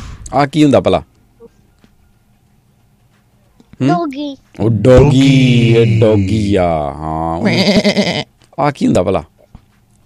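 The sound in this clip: A man imitates a goat with his voice, giving loud, quavering bleats that include one long, wavering cry, with brief talk before and after.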